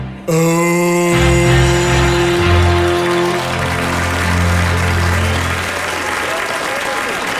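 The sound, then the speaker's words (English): Loud audience applause and cheering at a presidential rally, rising abruptly and holding strong and steady, with sustained musical tones fading out during the opening seconds. “That just broke the record for presidential applause right there. That was like 20 minutes of applause.”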